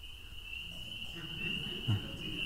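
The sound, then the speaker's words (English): Spring peepers, small frogs, calling at night: a steady, shrill high-pitched chorus runs unbroken throughout, over a soft low background. “Do you know what that is? That is the sound of spring peepers. Those are little frogs.”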